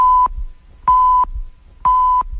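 Radio time signal, three short, loud, high-pitched electronic pips at an even pace with brief silences between them, heard alone.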